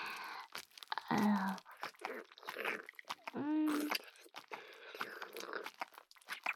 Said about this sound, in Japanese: ペロペロしちゃいますね。